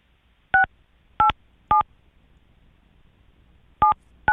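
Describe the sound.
Telephone keypad dialing tones: five short, clear beeps, three spaced evenly at the start, then a long pause before two more, each a crisp dual-pitched tone over a quiet background.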